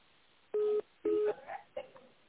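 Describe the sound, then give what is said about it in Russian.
Touch-tone keypad dialing of an extension number on a phone line: two steady beeps, each about a quarter second long, followed by brief fainter sounds. “Если вы знаете внутренний номер сотрудника, наберите его в тоновом режиме.”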